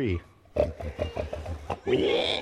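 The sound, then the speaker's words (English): A group of people during a sermon imitate pig oinks together, in a quick run of short, nasal snorting grunts that ends in a longer, higher squeal. “Okay, I need, though, a sound of pigs.”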